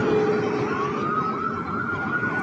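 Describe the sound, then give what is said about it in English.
Emergency siren wailing from a vehicle passing outside: a loud, continuous electronic tone that holds low, then climbs to a higher pitch and keeps sounding steadily, with no voices over it. “Sorry about the sirens.”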